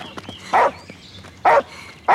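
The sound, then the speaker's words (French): A dog barks three times, each bark short, loud and sharp, spaced about a second apart, the last cut off, with quiet gaps between. “Voilà, viens là, mon chien.”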